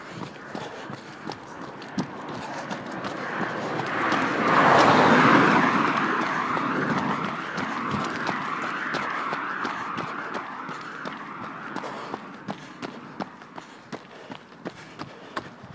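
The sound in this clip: Footsteps of a person running uphill outdoors: regular, sharp footfalls over a steady wash of background noise, with a broad swell of sound in the middle.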